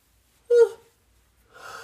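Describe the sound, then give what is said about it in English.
A sharp, brief gasping intake of breath with a slight whistling edge, taken as a deep breath, followed after a pause by a softer, airy breath. “After a while, I took a deep breath.”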